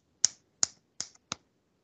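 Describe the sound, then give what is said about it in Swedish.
Fingers snapping against the knuckles: four sharp, dry snaps spaced roughly evenly, each a crisp click with a short tail, alone with no talk. “Knäppa med fingrarna fast... Fast på knogarna. Knäppa knogarna.”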